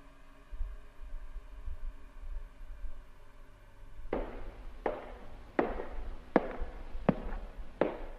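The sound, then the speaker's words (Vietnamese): Wooden clogs stepping slowly, six sharp hollow clacks at an even, unhurried pace after several seconds of low background hum. “Ở bên ngoài có tiếng ai đó đi guốc mộc chậm rãi tiến lại gần.”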